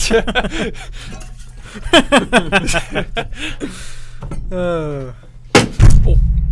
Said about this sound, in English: Dude, did you just break your chair? What did you do? What happened? I barely leaned back. Was that the chair or the wall?